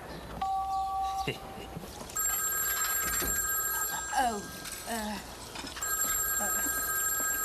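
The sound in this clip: A new cellular telephone rings with a bright electronic tone in two long bursts, following a few short tones and clatter at the start.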